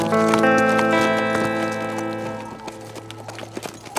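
Horses being ridden, their hooves clip-clopping in an uneven rhythm beneath a sustained tonal backing that fades, so the hoofbeats grow more distinct toward the end.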